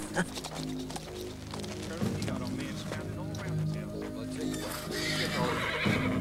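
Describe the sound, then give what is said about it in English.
Cavalry horses neigh and whinny while hooves clip-clop as troops arrive and dismount. The sounds come in a dense, continuous, busy mix that stays fairly steady in loudness throughout. “The cavalrymen climb off their horses.”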